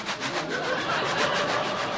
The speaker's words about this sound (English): It's just a train, okay? No worries. We'll just wait. I really like trains.